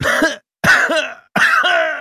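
A man coughing up blood, three harsh, loud, rasping coughs, each separated by a short silence.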